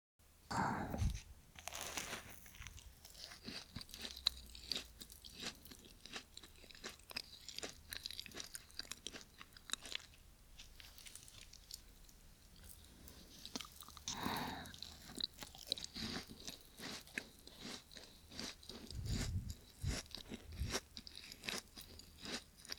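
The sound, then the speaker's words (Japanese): Crisp crunching and chewing of a macaron from a popular shop, with many sharp bites followed by repeated soft mastication. The sounds are fairly quiet and heard alone. “このマカロン。ちょっと話題になってた人気店のだね。食べてみたかったから嬉しいかも。それじゃあ、いただきます。”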